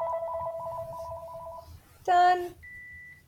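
Electronic ring of a new cordless house phone, one of a three-handset set, sounds as a steady warbling trill for under two seconds. A short, louder harmonic tone burst follows, then a faint, steady high beep.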